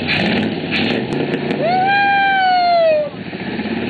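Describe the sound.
Engine of a replica car borrowed from the Cottage Grove Hysterical Society running with a steady rough rumble, joined midway by a sustained whining tone that slowly falls in pitch before cutting off.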